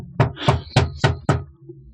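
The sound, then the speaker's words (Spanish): Knocking on a hotel suite door: five loud, evenly spaced knocks in steady rhythm, then quiet. “Aprieta la diestra y vuelve a golpear contra la puerta.”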